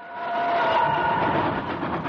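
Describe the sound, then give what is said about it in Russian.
A train travelling on a railway, with a continuous loud rumble, a rhythmic clickety-clack of wheels and a faint steady whine above it. No voices are heard. “Унылые будут возвращаться члены команды на родину по железной дороге.”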